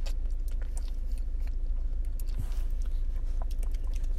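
Wet mouth and sipping sounds as someone consumes a McDonald's Shamrock Shake, a mint milkshake; soft smacks and small clicks over a steady low background hiss, with no talking.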